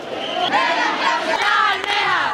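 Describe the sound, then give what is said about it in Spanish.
An audience, many of them illegal shellfish gatherers, shouts a rallying cry together, a mass of raised voices in loud overlapping bursts with a brief break partway through. “El público, muchos de ellos mariscadores furtivos, está gritando que viva la lucha de las almejas.”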